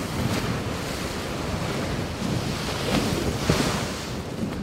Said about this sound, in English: What you're hearing are the collisions as a Canadian research icebreaker was cutting through Arctic sea ice in the Northwest Passage in the summer of 2017.